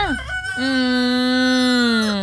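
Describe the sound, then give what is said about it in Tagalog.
Rooster crowing: one loud crow opening with a short rising call, then a long, strongly harmonic note held steady for over a second before dipping slightly as it fades. “Ga-panurok-turok na manok, dapat bugtaw na kamo, kag nakapreparar na kamo, nakapangapay na kamo, aga pa, mga katropa.”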